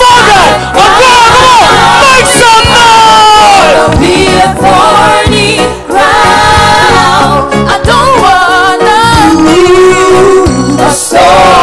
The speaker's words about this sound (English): I want you to jump around, make some noise, clap your hands, and join me